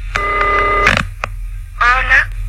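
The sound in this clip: Telephone tones sound as a radio host places a call. A steady, bright tone holds for under a second and is followed by a click, then a shorter, wavering tone, all over a constant low hum.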